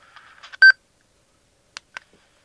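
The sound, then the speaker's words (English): A voice recorder gives a short, clear electronic beep as it starts recording. A few fainter blips follow, with silence between them. “Beeps and it means you're recording.”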